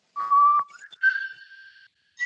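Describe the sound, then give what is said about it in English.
A person whistles to imitate an eerie whistling sound: a loud held tone, then a longer, slightly wavering note, then a brief final blip, heard alone. “all of a sudden you hear a sort of whistling sound, and it goes,”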